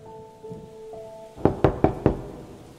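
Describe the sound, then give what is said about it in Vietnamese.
Four sharp knocks on a door land in quick, even succession. They are loud and distinct after a stretch of faint, steady tones. “Bên ngoài bỗng vang lên tiếng gõ cửa.”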